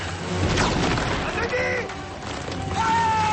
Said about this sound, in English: He lobs them over the wall, and they land by the scientist. Granate! Granate! The explosion throws the scientist into the portal, and he disintegrates.